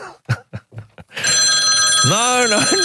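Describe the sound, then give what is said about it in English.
A mobile phone ringing with a steady, high electronic ringtone. It starts after a few seconds of talk and holds at an even loudness to the end, with voices briefly over it. “That was my phone, too.”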